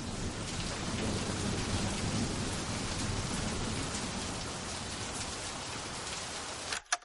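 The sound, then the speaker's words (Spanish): Steady rain falling outside, a dense, continuous hiss that stays at an even level for about seven seconds, with a couple of brief sharp sounds at the very end. “Fuera está lloviendo.”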